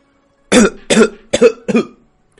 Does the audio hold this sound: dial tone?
no

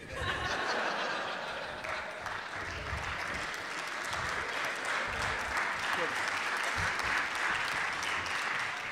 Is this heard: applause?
yes

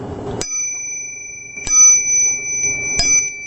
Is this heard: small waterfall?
no

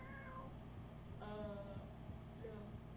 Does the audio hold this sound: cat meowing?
yes

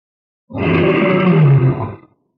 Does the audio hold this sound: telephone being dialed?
no

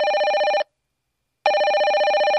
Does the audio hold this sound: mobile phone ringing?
yes

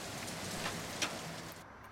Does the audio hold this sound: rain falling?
yes

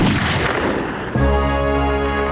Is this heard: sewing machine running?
no

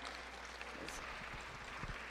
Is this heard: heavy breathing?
no

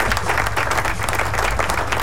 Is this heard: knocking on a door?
no

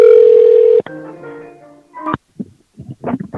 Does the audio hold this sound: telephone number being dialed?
yes

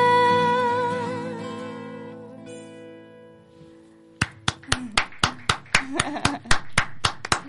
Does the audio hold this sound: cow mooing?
no

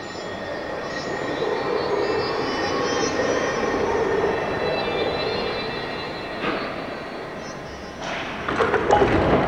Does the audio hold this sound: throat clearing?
no

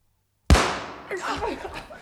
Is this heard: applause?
no

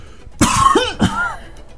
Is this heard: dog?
no

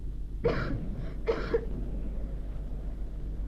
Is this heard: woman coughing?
yes

